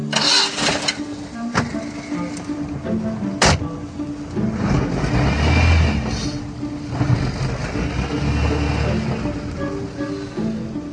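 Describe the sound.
A car engine starts after a few sharp mechanical clicks, then rumbles and surges as the car drives off, the engine noise rising and falling unevenly.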